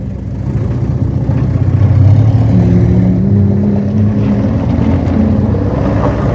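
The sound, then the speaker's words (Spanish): A taxi's car engine runs with a steady low rumble that swells slightly early on, then holds level. Its tone wavers a little as it keeps running, with no voices over it. “Arranque el coche, por favor.”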